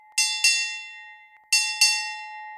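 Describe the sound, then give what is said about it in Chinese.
A ship's bell is struck four times in two pairs to mark a change of watch. Each clear, bright metallic strike rings out and decays, over a faint steady tone. “能听到每半小时奏响一次的钟声。在玛丽玫瑰号上工作的船员也曾经和您听着同样的声音，作为他们换班的信号。钟声成对敲响”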